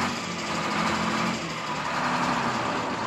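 A steady, droning aircraft engine runs before takeoff, its motor holding an even buzzing hum with a low rumble underneath and no clear pauses or changes in pitch.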